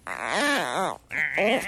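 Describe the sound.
A person's voice imitates a dog in two drawn-out, wavering cries separated by a short gap. The pitch bends up and down, so the cries sound more like a moaning groan than a bark.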